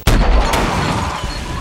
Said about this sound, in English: The corner of the living room distorts and stretches, then explodes in a flash of light.